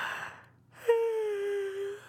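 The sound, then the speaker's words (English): A yawn from a tired woman working late at her loom: a soft breathy intake, a brief pause, then a long voiced, drawn-out tone that slides gently lower in pitch and fades away. “You're yawning.”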